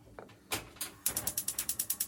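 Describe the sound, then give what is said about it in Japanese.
Gas stove igniter clicking as a burner is lit to grill edamame: a couple of soft clicks, then a rapid, regular run of many sharp ticks, all fairly faint. “火をつけつつ、換気扇も回しつつ、横に並べますよ”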